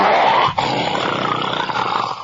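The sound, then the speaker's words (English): A man imitating a bear's growl with his voice: a loud, rough, low, sustained growl with one short break early on, then rumbling on to the end. “But he said, can you do the growl of a bear? I said, sure.”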